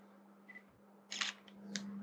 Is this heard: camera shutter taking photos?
yes

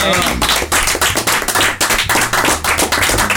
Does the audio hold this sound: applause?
yes

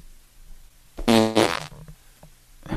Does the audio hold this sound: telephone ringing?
no

